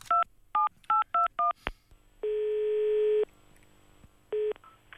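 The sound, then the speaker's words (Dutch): Telephone keypad tones as a new number is dialled: five quick two-pitch beeps in a brisk rhythm, then a short click, a long steady tone and one shorter tone. “We gaan gewoon nog een nieuw nummer bellen.”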